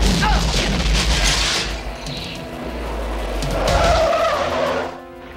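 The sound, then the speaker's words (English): A Jeep skids while turning around in a film scene, its tires scrubbing and screeching over a heavy engine rumble. The noisy skid surges and eases for several seconds before dropping away at the end. “They turn the Jeep around”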